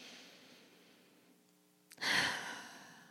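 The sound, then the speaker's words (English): A deep breath taken during a guided breathing exercise: a soft, drawn-out inhale followed by a louder, breathy exhale like a sigh, heard alone. “Let's take some deep breaths. Another one.”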